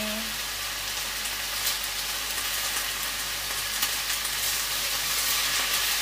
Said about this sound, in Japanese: 野菜炒めってどれぐらい炒めるのが正しいの。もやしなんてすぐ火通りそうだし、